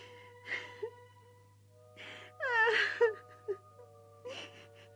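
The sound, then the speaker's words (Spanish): Someone crying in a few separate bursts of whimpering sobs and gasping breaths, with one long, quavering wail in the middle, over a faint steady hum. “Y entonces se echó a llorar.”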